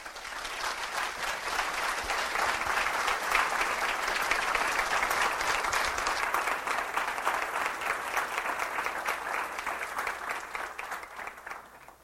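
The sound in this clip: An audience applauds to welcome a speaker, a dense, steady wash of many clapping hands sustained for about twelve seconds, holding its level before thinning slightly at the end.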